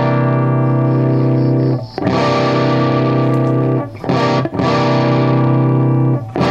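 Electric guitar through an amp with its clean and crunch channels blended into one distorted yet full tone. Loud sustained chords ring steadily, with a few brief breaks between them.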